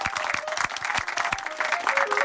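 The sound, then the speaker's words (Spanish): Audience applause for a presenter: brisk, dense clapping from a crowd, steady and fairly loud throughout. “Un aplauso para El Anya. Bravo.”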